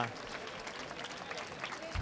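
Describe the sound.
Applause rises again from one section of the audience after a concert in a school courtyard, a faint, dense, steady patter of many hands, with a voice talking over it.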